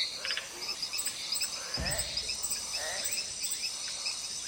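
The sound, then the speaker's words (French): Frogs and insects in the Amazon rainforest at night form a dense, steady chorus of high, shrill trills and repeated chirps, with occasional lower croaks, all at a soft, even level. “Impossible de se sentir seul dans la forêt amazonienne la nuit. On entend toutes sortes de bruits, des proches, des lointains, des aigus, des graves.”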